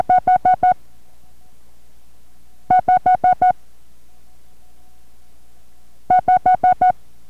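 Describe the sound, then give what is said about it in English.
Morse code for the number five, five short dits, sent three times as crisp, evenly spaced mid-pitched tone bursts with long quiet gaps between the groups. “The first number will be the number 5, and guess how many dits stand for 5? That's right, 5 dits.”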